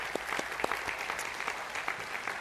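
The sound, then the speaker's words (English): Scattered hand clapping from a church audience, fairly faint, with individual sharp claps picking out an uneven rhythm throughout and no voices. “you're either clapping because we're finally done”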